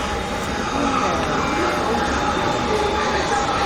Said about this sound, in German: Ah, da kommt schon die Bahn.